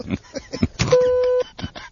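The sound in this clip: An answering machine gives a single steady, mid-pitched beep lasting about half a second before a message is left. The beep sits between stretches of talk.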